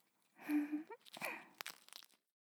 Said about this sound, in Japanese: 何かわかった？正解はフランスパンでした。